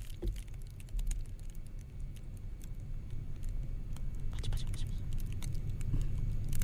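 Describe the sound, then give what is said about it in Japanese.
Rustling and crackling of an object held right against a microphone: a dense, continuous patter of tiny clicks and scratches over a low rumble, growing slightly louder toward the end. “今ガサガサ音ですね。”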